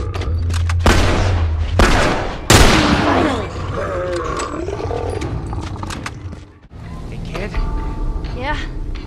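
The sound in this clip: A bloater, one of the large infected in The Last of Us video game, lets out heavy growling roars amid loud bursts of gunfire, with several sharp blasts early on followed by gurgling, rasping bellows.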